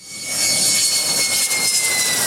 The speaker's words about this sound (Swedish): De 2 nya stridsflygplanen landade idag på militärbasen i Taitung på Taiwan.